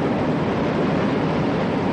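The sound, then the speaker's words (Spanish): A metro train crossing a bridge, heard as a dense, steady roaring rumble that stays even and unbroken throughout, with no voices. “Un metro circula sobre un puente.”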